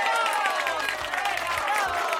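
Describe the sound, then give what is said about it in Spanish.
Dense, steady audience applause runs through the whole clip, with some voices mixed into the clapping. “Aplauso.”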